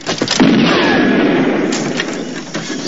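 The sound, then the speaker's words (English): Shotgun fire during a shootout around a bus: several sharp blasts over a dense, loud wash of noise that lasts throughout. “Having reloaded behind a log, the stranger steps forwards, shoots under the bus and hits a fruit basket right beside the killer.”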